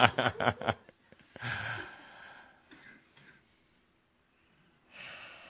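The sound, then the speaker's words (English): Deep breaths taken by a group: a few sharp clicks open, then a broad, airy breath swells and tapers. After a long quiet gap a second breath begins. “Let's all take a deep breath. Let's take another deep breath.”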